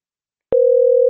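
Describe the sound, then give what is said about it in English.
A steady electronic telephone tone signals an incoming call. It starts abruptly after a brief silence and holds one unwavering mid pitch to the end. “Oh, we got a call coming in. Caller inner.”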